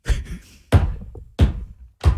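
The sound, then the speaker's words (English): Four sharp wooden knocks of a gavel being banged, evenly spaced about two-thirds of a second apart, each striking loudly and fading with a short resonant decay, with no voices. “You want to bang that gavel?”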